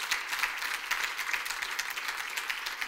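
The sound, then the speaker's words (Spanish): Soft applause from an audience at a bilingual English-Spanish church service, a quiet, steady patter of many hands with individual claps standing out. “Let's give the Lord another praise offering. Amen. Vamos a darle un aplauso al Señor.”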